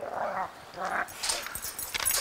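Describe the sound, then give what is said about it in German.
Wolves whining and yipping at their daily feeding, with two drawn-out, wavering whines at the start followed by a cluster of short, sharper yelps and snuffling noises. The calls are moderately loud. “Es findet täglich Wolfsfütterung statt. Also ich füttere zuerst mal die Wölfe.”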